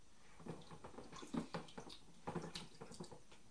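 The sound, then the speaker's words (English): Raindrops falling in a faint, irregular patter of small drips, a few landing more sharply than the rest. “What is it? Raindrops. Raindrops falling down.”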